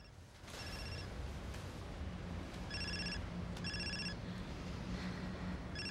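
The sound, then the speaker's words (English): A mobile phone ringing, its bright electronic ringtone repeating in short regular bursts over a steady wash of background noise. “His phone starts to ring.”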